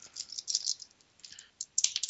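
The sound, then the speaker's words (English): Dice drop and rattle during a tabletop role-playing game, making faint, scattered bursts of light clicking and clattering separated by brief pauses. “God damn it, dropping dice everywhere.”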